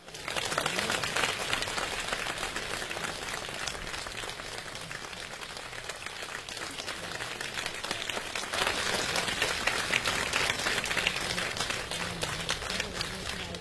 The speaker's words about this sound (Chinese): 接下来请大家用热烈的掌声有请我国著名的相声表演艺术家王千祥、李增瑞。